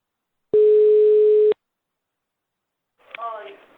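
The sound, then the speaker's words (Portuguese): A single steady, mid-pitched telephone ringback tone sounds for about one second while a call is being placed, followed by silence and then a brief voice at the end. “Eu vou ligar agora pra Cida”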